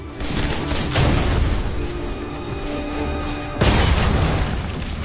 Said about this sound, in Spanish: La granada explota lanzando afilada metralla de estaño que corta al teniente coronel.